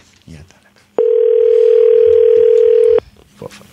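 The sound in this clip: Outgoing telephone call ringing: one loud, steady tone held evenly for about two seconds, with low murmuring voices before and after it.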